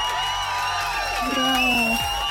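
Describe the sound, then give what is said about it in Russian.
A crowd cheers, whoops and applauds, filling the whole moment with dense, loud noise. A few shouted voices rise above it. “Я тебе поздравляю, аплодисменты для тебя.”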